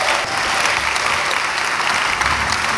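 Applause in a chapel welcoming two guests: a dense, loud, steady wash of many hands clapping that holds at full strength for the whole short stretch.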